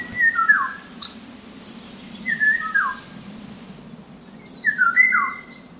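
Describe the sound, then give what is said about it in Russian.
Eurasian golden oriole song: three short, fluting whistled phrases separated by pauses, with a brief higher note after the first, over a faint steady low hum. “голос Иволги, если и можно с кем-то перепутать, то с черным дроздом”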